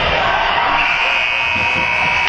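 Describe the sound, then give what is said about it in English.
A loud final horn marks the end of a hockey game, sounding as one steady, unbroken blare from start to finish over the crowd's noise. “Under 10 seconds left. Final horn is going to sound.”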